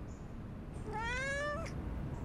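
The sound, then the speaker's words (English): A gray cat, rolling in the dust in front of an old stone house downtown, gives a single drawn-out meow, faint above a steady background hiss. “A gray cat rolls around in the dust in front of the old Walker Stone House in downtown Fayetteville.”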